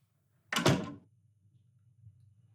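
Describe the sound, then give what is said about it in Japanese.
A bedroom door is opened with one loud, sharp thud and a brief rattle, followed by quiet low hum and a few faint soft knocks. “今部屋を開けるね。入って入って。”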